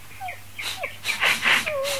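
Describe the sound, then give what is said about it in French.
A small brown and red dog with long ears whimpers as it emerges from a bag, giving several short, high, thin squeaks mixed with breathy snuffles, ending in a longer whine. “sortant du sac, un ravissant petit chien brun et roux dont les longues oreilles traînaient sur le sol”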